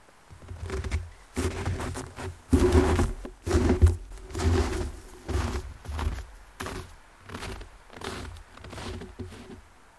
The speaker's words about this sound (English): So we set up the microphone in the snow and walked away from it, calling in different directions.